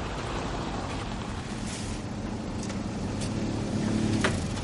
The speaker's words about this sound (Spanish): El coche del reverendo se aproxima. Pone el intermitente y estaciona junto al coche gris.